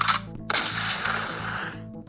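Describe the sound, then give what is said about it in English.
A shotgun blast sound effect played from a soundboard button: a short sharp crack, then a louder blast whose noisy tail fades over about a second, with no talk over it. “Where my button is? Right here. Gwyneth Paltrow, you suck. Let's give a shotgun to the dome.”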